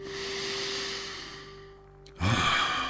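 Deep breathing during a yoga pose with hips raised high and the head hanging. A long, soft breathy sigh fades out, then a louder, sharper rush of breath follows.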